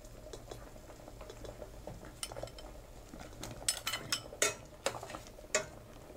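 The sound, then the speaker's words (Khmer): Gourd pieces being added to a pot of boiling vegetable soup, with several light clinks and knocks of a utensil against the pot over a quiet, low background. “សម្លរបស់យើងបានពុះហើយអញ្ចឹងបន្លែក៏បានផុយដែរអញ្ចឹងយើងដាក់ត្រឡាចចូល”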